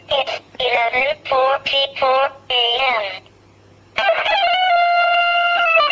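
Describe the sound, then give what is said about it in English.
An electronic rooster-crow alarm from a small travel clock, tinny and unrealistic: a quick run of short, warbling crow-like bursts, a brief pause, then one longer, steadier synthetic crow. The alarm is loud and plays alone. “the rooster crow on this little travel clock I've got, this one, does sound a bit retarded. Some of you may know what it sounds like. I'll play it.”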